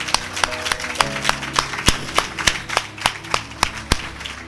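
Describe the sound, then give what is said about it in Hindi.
A church audience claps in unison, giving thanks to God at a New Year's Day service: sharp, evenly spaced hand claps in a steady rhythm, each one a distinct crisp crack. “क्या हम सब सबसे पहले अपने प्रभु को ताली बजा करके धन्यवाद दे सकते हालेलुया”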